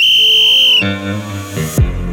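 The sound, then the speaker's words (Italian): A traffic policeman's whistle gives one loud, shrill, steady blast lasting under a second, followed by lower sustained tones. “il traffico è gestito da un vigile con il suo amato fischietto.”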